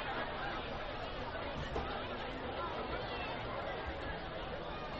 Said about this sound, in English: Very good crowd here at Welcome Stadium tonight for this ball game.